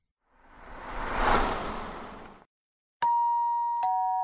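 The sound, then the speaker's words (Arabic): A door chime sounds two notes, ding then a slightly lower dong, ringing out clearly after a swelling whoosh fades to silence. “ذهبت لأفتح الباب في شقتي بالدق، متوقعا كالعادة أن من يرن الجرس”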